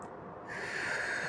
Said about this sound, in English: So now at this time, take some very deep breaths.